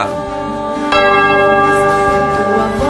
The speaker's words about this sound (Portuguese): Vai lá, sacristão, toca o sino, homem, vai lá.